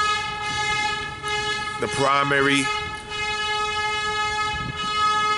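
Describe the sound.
A passing train sounds a horn like a car's, used at a crossing instead of the usual bells. One short, bright blast with a wavering pitch rises above the steady rumble of the rail cars.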